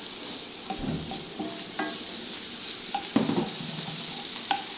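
Vegetables sweat down in a cooking pan with a soft, steady sizzle, broken by a few light clinks and scrapes of stirring, with no talking.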